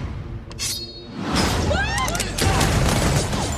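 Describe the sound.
Gunfire in an action scene of a spy comedy film: sharp bursts of shots, whooshes and a crash mixed with voices, building to a dense, loud stretch of shooting in the second half.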